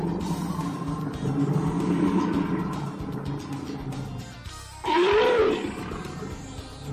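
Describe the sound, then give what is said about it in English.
A bear roars: a low, rumbling growl runs for several seconds, then a short, louder roar bursts out near the end. “Jim, what was that animal sound? I'm going to go with a bear. I would say that you are correct.”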